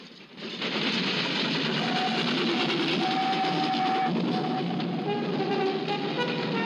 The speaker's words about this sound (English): The children stand watching a passing train.